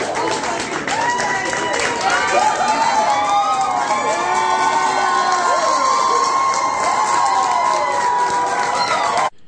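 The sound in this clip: A crowd cheers and shouts in celebration after a strict abortion law was blocked. The roar is loud and continuous, with high whoops and voices yelling throughout, and it cuts off abruptly at the end.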